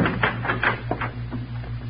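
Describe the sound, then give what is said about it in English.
A door being unlocked: a few soft mechanical clicks and rattles of the lock in an irregular pattern, over a steady low hum. “Somebody's unlocking the door.”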